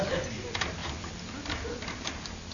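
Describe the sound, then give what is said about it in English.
A key rattling in a front door lock gives a few light metallic clicks and scrapes at an uneven pace, with a voice in the background. “The key doesn't fit. Here, let me try it. No. You must have the wrong key.”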